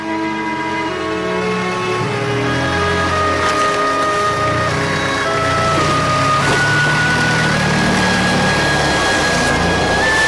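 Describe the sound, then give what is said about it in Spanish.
A truck engine starting and pulling away, a steady droning rumble with a layered harmonic hum whose tone shifts upward about two-thirds of the way through, with no voices. “El camión arranca.”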